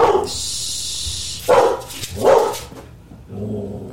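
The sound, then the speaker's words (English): A dog barks loudly in a few sharp, forceful bursts, with a high hissing whine before the first bark and a softer, lower bark near the end. No talking is heard. “That was so loud. I'm so sorry. The dog is losing his mind.”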